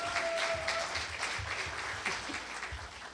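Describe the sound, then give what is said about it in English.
An audience gives steady, dense applause to welcome a guest onto a stage, the clapping holding at an even level throughout. “So would you please welcome Ray? Come on, give Ray a warm welcome.”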